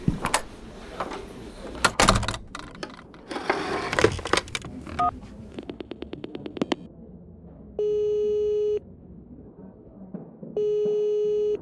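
Touch-tone dialing of a telephone number, a quick run of many short beeps after rustling and handling noises, followed by two long, steady ringback tones separated by a pause.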